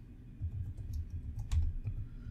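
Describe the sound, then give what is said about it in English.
Soft typing of a search on a computer keyboard, an irregular run of muted key taps with one slightly louder cluster midway. “So, did you want to type in Gotham finale Joker?”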